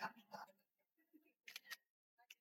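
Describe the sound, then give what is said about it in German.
A smartphone camera shutter fires as a photo is taken in the Be My Eyes app: a crisp, quiet double click, preceded and followed by soft talking. “Da gehe ich Kamera mal drauf. Wird gestartet, Be My Eyes. Und jetzt mache ich mal ein Foto.”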